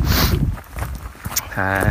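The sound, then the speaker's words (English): Footsteps walking through woods among trees in hilly country, with soft, uneven crunching under wind noise. A brief pitched tone sounds near the end. “And I'm just walking through the trees, the woods at the moment.”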